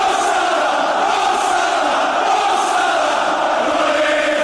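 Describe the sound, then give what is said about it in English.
Football fans roar at Anfield, Liverpool, on the day of Mohamed Salah's final Premier League game there; the crowd noise is a steady, loud, unbroken wash of voices. “And the noises you're hearing right there are the noises from Anfield, Liverpool,”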